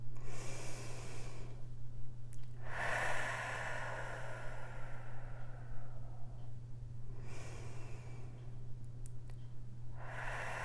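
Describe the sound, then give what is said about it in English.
Someone takes a few slow, deep breaths in and out, each a soft, airy rush rising and falling. The breathing is faint, and a steady low hum runs underneath. “So just hold here and take a deep breath. Let it out.”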